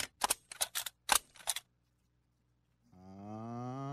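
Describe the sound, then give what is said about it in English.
A stapler being pressed: several crisp, sharp clacks in a quick, uneven burst lasting under two seconds, then silence before a steady tonal hum begins. “That's my stapler. Have you seen my stapler?”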